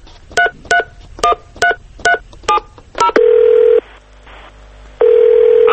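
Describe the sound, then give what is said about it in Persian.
Seven quick touch-tone beeps as a telephone number is dialed to an Iranian state news agency, then a steady ringback tone that sounds, pauses for about a second, and starts again. “خب اجازه بدین من اولین شماره رو بگیرم یکی از این خبرگزاری هاستش.”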